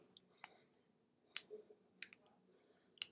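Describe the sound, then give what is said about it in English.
A sticker being peeled off a Smoant S8 auto-draw vape pod: faint, brief crackling snaps and clicks in a few separate bursts with quiet gaps between, no voices. “So let's go ahead and remove the sticker and see what's under the hood.”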